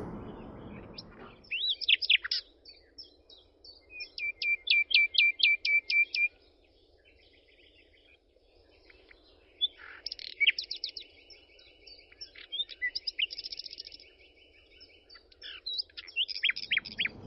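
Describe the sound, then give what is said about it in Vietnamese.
Birds singing: bursts of rapid, high chirping and trilling phrases alternate with quieter pauses, carried over a soft, steady low background hum. “Nghe chim hót,”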